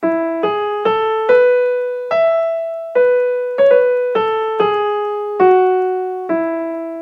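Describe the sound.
Opening phrase of a French folk song tune played on instruments as a string of distinct pitched notes, each sounding clearly and then decaying, in a moderate, even rhythm with no voices.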